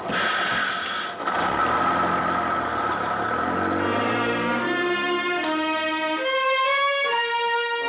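A bus engine runs on a passenger bus leaving the city for desert country. It gives a steady, fairly quiet rumbling drone, and its tones climb steadily in pitch during the second half as the engine picks up speed.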